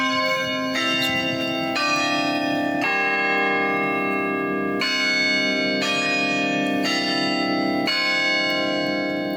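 Big bells of a 57-bell university bell tower on a campus ring loudly in a sustained, richly overlapping peal, with new strikes arriving about once a second over a long humming resonance.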